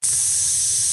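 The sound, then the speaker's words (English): Fajitas sizzle with a bright, steady hiss that starts abruptly and holds at an even, fairly loud level for about a second, alone with no voices. “That's the sound of the fajitas.”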